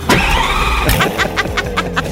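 A car engine runs steadily as the car arrives and pulls into a parking spot at a studio, with a continuous mid-range hum and several short clicks and knocks over it.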